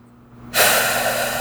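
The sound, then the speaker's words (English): A single deep breath taken during a tapping exercise: quiet at first, then an abrupt, breathy rush of air that holds steady for about a second. “Deep breath.”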